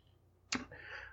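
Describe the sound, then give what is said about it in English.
Dog alarm device notification going off: a sharp click, then a faint, high electronic tone that holds briefly. “more notifications. Okay, I get it. That's the dog alarm. It's going off.”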